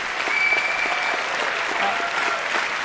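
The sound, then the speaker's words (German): An audience in a hall in Mainz applauds at a German cabaret award ceremony, a dense, steady wash of clapping with no break, and a brief thin whistle near the start. “Wow, das ist Mainz! Hören Sie das Haus, was hier los ist? Mainz!”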